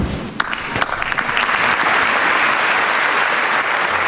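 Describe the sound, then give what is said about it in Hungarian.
A storm of applause from the audience at a papal general audience: a few scattered early claps swell into dense, loud, sustained clapping that holds steady to the end. “ezzel a tapsviharral ér véget a mai napon is Ferenc pápa általános kihallgatása.”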